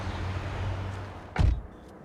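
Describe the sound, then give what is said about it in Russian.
A car door shuts once with a solid, low thump as someone gets out of a car at a parking lot. A low, steady hum runs before it, and the sound then drops to near quiet. “выходит из машины”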